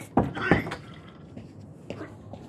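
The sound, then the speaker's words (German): A door being shut at home: two sharp, fairly loud knocks come close together, a softer clunk follows after a pause, and faint background noise fills the gaps. “bitte mach einfach nur die Tür zu”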